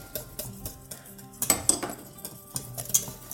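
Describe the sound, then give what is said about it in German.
A spoon stirs agave syrup and vanilla extract in a pot, making faint metallic clinks and scrapes against the pot in an irregular rhythm, with no talking. “Einmal umrühren. Und lassen es jetzt etwas abkühlen.”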